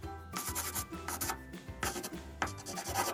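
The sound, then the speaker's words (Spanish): Scratchy rubbing of writing in a notebook, heard as a steady run of rasping strokes with a few louder bursts and short pauses between them. No voices accompany it. “entonces lo escribo en mi cuaderno”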